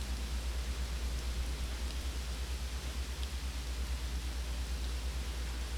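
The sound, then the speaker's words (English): Pouring rain makes a dense, unbroken hiss over a constant low rumble. The loudness stays even from start to end, with no voices. “You can hear the rain pouring, and everyone agrees.”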